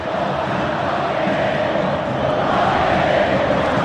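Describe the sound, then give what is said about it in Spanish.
Instituto supporters chanting in the Kempes stadium during an Argentine football match against Boca: a dense, steady roar of many voices that swells slightly toward the end. “Canta el público de Instituto una canción de las mejores del fútbol argentino. Que se escuchan por el público para toda la cadena nacional.”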